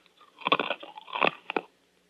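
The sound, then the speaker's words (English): Crunching of a Luden's cough drop being bitten and chewed: a few crisp, brittle crunch bursts in quick clusters, fairly loud, with no talk. “Never, don't ever chew a Luden's Cough Drop.”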